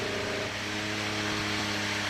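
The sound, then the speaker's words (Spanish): Formula 1 engine on Alex Albon's car running during testing, a steady droning hum with strong tonal harmonics at an even, unbroken loudness, with no voices over it. “están aquí todavía haciendo cosas con el motor del compañero de Carlos Sainz, de Alex Albon, a ver qué tal suena esto. Es alucinante”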